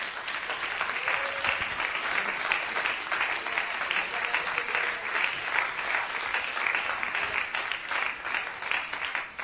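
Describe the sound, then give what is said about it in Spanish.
A church audience applauds during a sermon, with dense, steady clapping from many hands that holds at an even, loud level for the full stretch, and no distinct voices stand out. “Denle un aplauso a Cristo, que Él se lo merece.”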